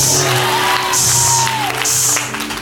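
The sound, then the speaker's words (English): An audience claps in loud, rhythmic bursts, with whoops and cheering rising through the clapping. Sustained tones run underneath the whole time. “Clap again. Clap again.”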